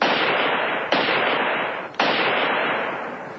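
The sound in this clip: Gunshots are fired at a radio transmitter in a schoolhouse: three loud, sharp blasts, each trailing a long, slowly fading roar of noise before the next shot.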